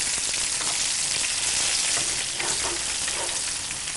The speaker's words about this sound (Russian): В принципе, вот как они только прихватились, уже переворачивались. Недолго. Я всегда жарю на медленном огне, и чтобы они подрумянились так.